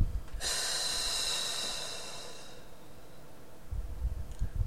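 A person breathing in deeply during a guided relaxation exercise: one long, airy inhalation lasting about two seconds, followed by quiet.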